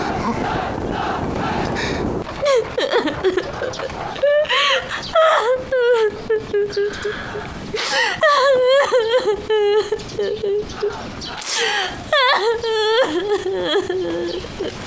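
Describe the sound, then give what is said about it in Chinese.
A woman cries at length in a palace drama, sobbing and wailing in high, wavering, broken cries that rise and drop in bursts, with other voices heard at times. “母妃正急着哭呢。”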